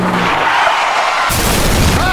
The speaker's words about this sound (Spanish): Le pegó por la parte de atrás al Lamborghini.